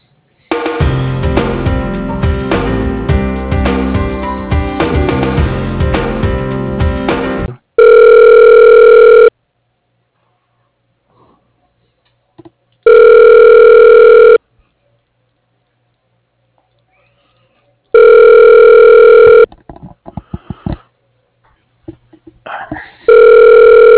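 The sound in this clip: Telephone ringback as a call is transferred to voicemail: a dense stretch of line audio opens, then three long, loud, steady ring tones follow, each separated by silence. A few scattered clicks come at the end.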